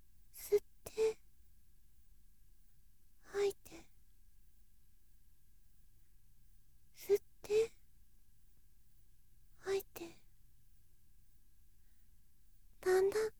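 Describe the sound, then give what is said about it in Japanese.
Deep breathing during a guided relaxation exercise: several slow, soft inhales and exhales, mostly in pairs and slightly voiced like sighs, separated by long quiet pauses. “このまま深呼吸をしてみましょうか。では、吸って、吐いて、”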